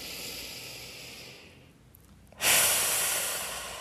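A deep breath drawn in through the nose during a guided breathing exercise: a loud, airy rush that starts abruptly after a brief quiet gap and holds steady to the end.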